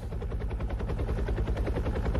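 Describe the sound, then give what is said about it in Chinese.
Rapid rhythmic thumping of a firefighting helicopter flying water to a blaze, a steady, fast chopping pulse over a deep rumble with no voices. “哎，你看直升机来了。”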